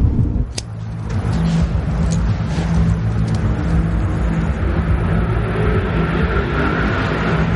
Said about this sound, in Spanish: El taxista arranca y se marcha del lugar.